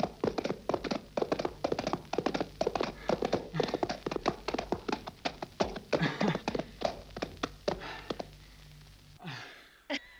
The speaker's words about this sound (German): Sie reiten ihr Pferd zu Schanden.